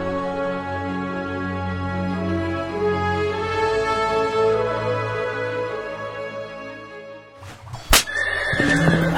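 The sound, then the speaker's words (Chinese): A rider's horse in a World of Warcraft tale lets out a long, wavering whinny of protest. Near the end a single sharp whip crack lands as the rider lashes its neck. “达纳斯狠狠地用马鞭抽着马脖子，他的坐骑嘶鸣着以示抗议，口中满是泡沫，但还是服从了主人的意愿。”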